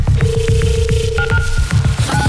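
Telephone tones for a phone call being dialed: a long steady tone, then short paired dialing beeps, all loud over a pulsing, throbbing rhythmic music bed.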